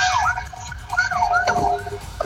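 A Carabineros police patrol car siren wails, its pitch sweeping up and down in repeated cycles over a dense, noisy background at a busy scene with traffic.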